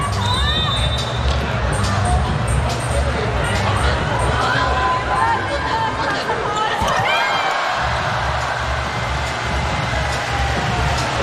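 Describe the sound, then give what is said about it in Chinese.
Crowd chanting cheers for the Chinese team at a match, a loud, continuous mass of voices that holds steady throughout with no clear breaks. “加油声继续，中国队加油，中国队”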